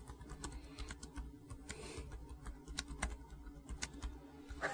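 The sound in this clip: Faint clicking of typing on a computer keyboard, someone entering a search for a C64 video game clip on YouTube; irregular light key taps over a steady low hum.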